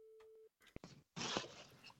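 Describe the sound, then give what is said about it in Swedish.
A telephone ringing tone sounds as one short, steady mid-pitched beep while a call is placed, then a click and a burst of noisy sound follow. “Jag ska ta och ringa upp Olle Jönsson, sångaren.”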